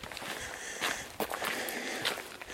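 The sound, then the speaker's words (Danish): Footsteps of one person walking alone through a small town, soft steady steps blended into a continuous faint outdoor hiss. “Så nu er jeg kommet ud. Hvor jeg går alene gennem en hyggelig lille by.”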